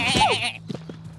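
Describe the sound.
A young sheep gives one loud, wavering bleat lasting about half a second, followed by a few faint, low knocks and rustles.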